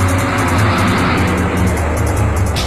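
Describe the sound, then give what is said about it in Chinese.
Steady road noise from a car driving along a road at dusk: a continuous low rumble under a broad, even hiss, with no distinct events or talk. “这天又到了黄昏时分，苗镇他们开车又一次由西向东开向事发地点。”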